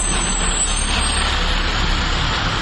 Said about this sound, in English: Which way is that truck? Oh, that's not fair. He turned off to the left.